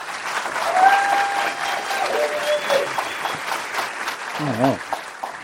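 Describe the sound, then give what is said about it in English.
Warm audience applause welcomes two guests at the start of a book talk: a steady, dense wash of clapping that swells and continues throughout, with some voices mixed in. “So first, let's give a warm round of welcome to Kamau and Kate.”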